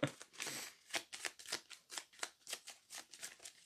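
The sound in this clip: Playing cards shuffled during a tabletop card game: a rapid run of many crisp, papery riffle bursts in a steady rhythm, fairly quiet, with no talking over them.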